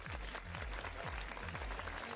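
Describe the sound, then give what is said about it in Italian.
A party crowd at a DJ set gives a steady wash of applause over a pounding electronic beat with repeated deep, booming kicks. “Facciamo un applauso?”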